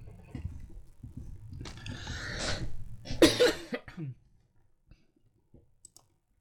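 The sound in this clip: Coughing from something stuck in the throat: a few harsh, rasping coughs in irregular bursts, followed by faint clicks and breaths as the coughing dies away.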